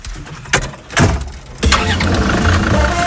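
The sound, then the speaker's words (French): A 4x4 off-road vehicle with its original engine, out in the Camargue: a few sharp bursts of noise, then the engine settles into a steady, low running rumble. “Grimpez. Grimpez avec moi à bord d'un 4x4. Motorisation d'origine. Confort sommaire.”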